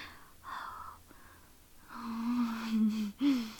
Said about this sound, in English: Oh, look at you gasping for air.